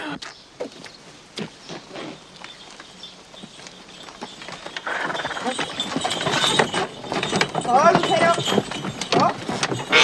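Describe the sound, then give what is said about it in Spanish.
Clip-clop of horse hooves pulling a cart arriving at a house: many brisk, regular hoof clacks that grow busier and louder through the second half. “Rocío, Fernando y Juanito llegan a la casa en un carro”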